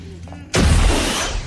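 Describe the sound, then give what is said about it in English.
A rocket fired at a door erupts as one sudden, heavy blast after a near-quiet moment, a loud booming roar that lingers and slowly fades. “A rocket is fired at the door.”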